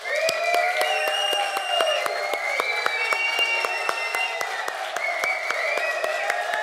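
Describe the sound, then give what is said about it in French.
Loud, dense applause from an audience of men rising for a standing ovation to honour the women, the clapping steady throughout with cheering voices ringing above it. “On va faire une ovation, un standing ovation aux femmes, puis on va leur donner une main d'appréciation très fort.”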